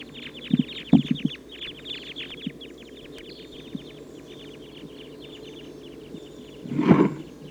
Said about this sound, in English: That big flock of about 14 type 2 crossbills took off to the south.